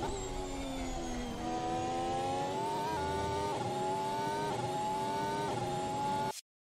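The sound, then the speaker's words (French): A Formula One car's engine drives a lap of the Abu Dhabi circuit. Its loud, continuous buzzing whine climbs and drops in pitch through several gear changes, then stops abruptly. “Et voilà donc pour un petit tour du circuit euh, d'Abu Dhabi.”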